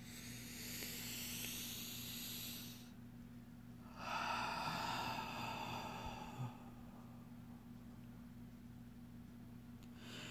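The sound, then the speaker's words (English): A deep breath taken during a guided relaxation session. There are two long, airy rushes of breath separated by a short pause, both soft and hissy over a faint steady hum, with no talking. “So take a breath.”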